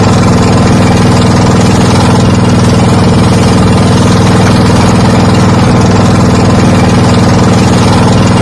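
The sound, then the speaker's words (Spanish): Steady, loud engine drone from a boat motor running during a river trip in Laos, a continuous low rumble with a dense mechanical hum that holds unchanged from start to finish, no voices. “El sonido es el motor de una barca”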